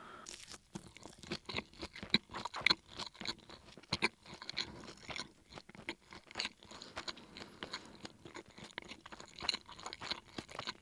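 Crunching and chewing while eating a convenience-store Japanese ehomaki sushi roll, rice-heavy with smoky grilled beef filling. Many irregular crisp bites and mouth sounds with no talk.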